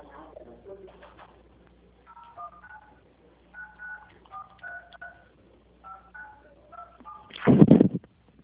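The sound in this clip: Telephone keypad tones as a number is dialled for a call about loan eligibility: several bursts of short dual-pitched beeps, fairly faint, with a faint voice at the start and a loud rustling burst near the end.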